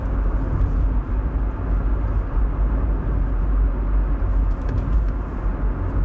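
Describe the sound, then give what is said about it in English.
Steady, loud low-pitched road rumble from a car driving home on the FDR highway on a Saturday night with no traffic, a continuous even drone with no breaks and no voices. “And now I'm on the FDR driving home, and there's no traffic”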